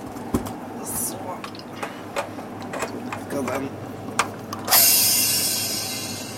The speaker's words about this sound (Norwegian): Strammer til med verktøy.